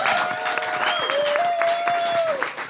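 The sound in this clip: Audience applause and cheers greet a guest introduced on a talk show, a dense steady roar of clapping with a high sustained whistle gliding through it.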